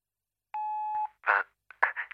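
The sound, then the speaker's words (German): A talking clock's time signal tone sounds as a single steady beep about half a second long, followed by a couple of brief, softer bursts. “Beim nächsten Ton ist es 16 Uhr, 10 Minuten und 20 Sekunden.”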